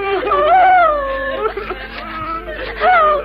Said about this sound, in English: Then why this weeping and wailing?